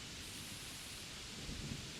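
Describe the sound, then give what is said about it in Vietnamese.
Heavy rain pours down outside on a chilly autumn night, a soft, continuous hiss that stays even throughout, with no voices or distinct separate drops. “Cơn mưa nặng hạt ở bên ngoài trời bất ngờ rì rào đổ xuống trong một đêm mùa thu se lạnh”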